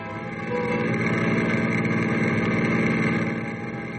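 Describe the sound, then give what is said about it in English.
Engine hum of a car driving away from a ranch house: a steady, low mid-pitched drone that swells after the first half second, holds loud and even, then eases slightly near the end. “Ken and Pagon are driving away from the ranch house.”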